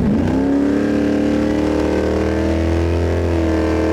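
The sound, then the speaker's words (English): Engine roar of a 1969 Plymouth Barracuda accelerating down a race track, carrying added weight. A loud, steady, harmonic drone with a brief upward pitch sweep at the start, then a sustained tone with a strong low rumble beneath. “this reporter took a ride in a 1969 Plymouth Barracuda”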